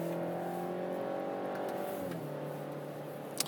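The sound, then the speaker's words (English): Steady engine drone from a BMW driverless car lapping the Laguna Seca race track, a loud continuous hum whose pitch drops partway through, with a brief click near the end. “pacing us is once again the automated car from BMW, the driverless car that has been programmed to uh, maybe do six, uh, seven tenths around Laguna Seca. So there we go.”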